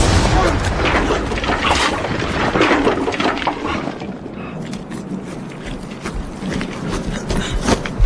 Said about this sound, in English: Get any sleep? We did until this lot started. No word of when this'll stop, then? This bombardment or the war? Just this bombardment, sir.